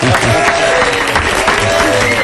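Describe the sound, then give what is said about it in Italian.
A loud, dense crowd roar, a recorded effect played in a radio studio, fills the whole clip as an unbroken wash of cheering and clapping at constant volume. “Continua, continua il boato della folla fuori dai nostri studi, anche se non c'è ed è virtuale, a noi va bene così.”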